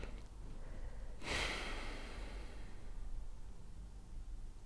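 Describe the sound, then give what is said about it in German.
Deep breathing in and out during a guided breathing exercise: a soft, breathy rush begins suddenly about a quarter of the way in, then fades gradually. It is quiet throughout, with no talking. “Dann atme doch einfach nochmal zwei, dreimal tief ein und aus.”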